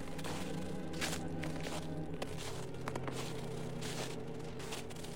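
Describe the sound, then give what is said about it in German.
Footsteps cross a frozen river on a winter night: many faint, evenly spaced steps over a low, steady hum. “Über den zugefrorenen Fluss läuft Kunkel zu seiner nächtlichen Insel.”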